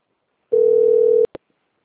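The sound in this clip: A telephone tone from an incoming call: one steady electronic beep holds for under a second, then two short clicks follow. No voices.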